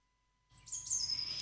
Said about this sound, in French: quand vous entendez ce chant-là autour de vous, à Montpellier, vous vous dites, ah, il y a une mésange bleue.